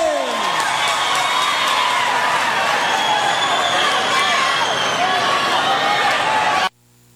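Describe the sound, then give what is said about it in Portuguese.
Loud, continuous applause and cheering from an audience at a Brazilian stage event, a dense steady roar of clapping mixed with crowd voices that cuts off abruptly near the end. “Das palmas de vocês, mais palmas, mais palmas, mais palmas”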